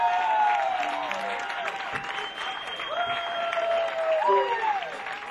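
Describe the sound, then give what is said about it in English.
Audience applause greets a big band as it takes the stage, a loud, sustained wash of clapping and crowd noise with a few long tones ringing over it. “Ladies and gentlemen, please put your hands together and welcome to the stage, the El Palermo Big Band.”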